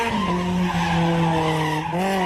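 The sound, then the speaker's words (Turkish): Tires skid as a car drifts on a road open to traffic: a sustained, loud, high squeal with steady pitch that shifts slightly upward near the end. “Trafiğe açık alanlarda drift yapan sürücüler”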